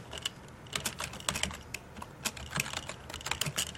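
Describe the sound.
Code is typed on a computer keyboard during a programming demonstration: many quick, irregular key clicks, fairly soft, with no talking.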